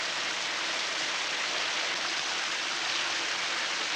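Shower water running in a generous, steady flow, a dense, even hiss that continues without breaks and with no voices.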